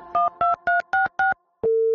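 Five short telephone keypad tones beep in quick, even succession, then a steady lower ringing tone begins as a call goes through to a tax service hotline.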